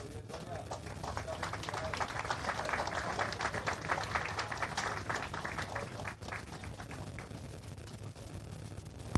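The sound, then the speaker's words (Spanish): Applause from an audience at an award ceremony as a recipient comes forward, a dense, steady wash of clapping that holds at an even level throughout. “fuertes los aplausos para Sonia Ocampos.”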